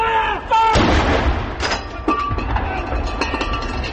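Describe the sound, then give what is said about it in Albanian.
Booming artillery gun salute fired in a London park to mark the birth of a royal baby son: several heavy, sharp blasts over a continuous rumbling background. “Rënja zileve të mëdha dhe shtenja me armë kanë shënuar lindjen e djalit të dukes dhe dukeshës së Cambridge”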